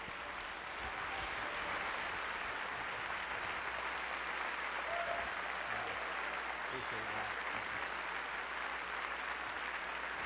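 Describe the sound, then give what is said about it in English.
A church audience gives loud, sustained applause to welcome a guest preacher. Dense clapping holds steady for the whole stretch without a break. “I want you to stand back up on your feet and put your hands together and welcome Bob Russell as he comes to preach for us today.”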